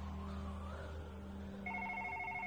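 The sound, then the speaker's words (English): A telephone rings with a repeating warbling electronic tone that starts partway through, over a steady low hum. “So the phone's still off the hook? Mm-hmm, at this point, still ringing?”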